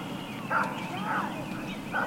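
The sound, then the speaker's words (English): Dog barking repeatedly in the background as people gather to watch a total solar eclipse: a few short, sharp yipping barks over steady background noise. “Sorry about the dog continuously barking in the background.”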